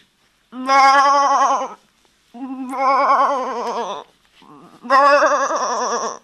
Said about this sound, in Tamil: டே, இது பேர் கெடா.